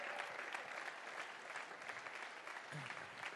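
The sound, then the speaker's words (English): An audience at an evening event applauds a speaker coming up. The clapping is steady and continuous, fairly soft, and holds evenly throughout. “And so why don't you put your hands together for Matt Glatzer as he comes to share his story tonight.”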